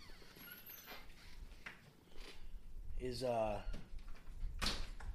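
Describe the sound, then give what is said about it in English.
A door is opened to let a dog out, giving a short squeaky creak with a wavering, sliding pitch amid rustling, while a person talks. “So I'll go let Popo out the door”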